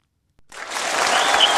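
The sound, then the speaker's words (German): Studio audience applause on a German-language show: after a moment of silence, dense clapping starts and quickly swells to a steady, full level. “Ja, vielen Dank für den Applaus.”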